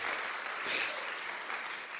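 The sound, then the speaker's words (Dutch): A church audience applauds during a service, producing a fairly soft, continuous wash of many hands clapping that swells briefly midway before settling back to a steady level. “Laten we God een applaus geven.”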